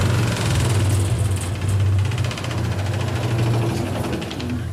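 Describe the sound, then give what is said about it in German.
A confetti machine punching out confetti in a workshop ahead of the Basel carnival deliveries: a steady, loud mechanical drone with a rapid, even clatter running through it without pause. “Die Konfettimaschine stanzt fließig weiter bis zu der Basler Fasnacht.”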